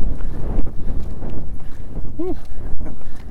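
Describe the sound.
Wind outdoors on a hill, gusting and buffeting the microphone with an uneven low rumble that rises and falls throughout.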